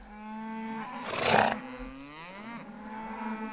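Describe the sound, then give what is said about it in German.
Cattle moo loudly in long, drawn-out calls, with a few overlapping moos one after another and no talk. “Die Rinder melden sich schon lautstark.”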